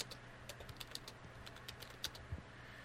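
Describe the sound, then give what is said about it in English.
Typing on a computer keyboard: many faint, quick key clicks in an uneven rhythm, with a couple of slightly louder taps near the end. No voices are heard. “Oops. Yeah, I can type.”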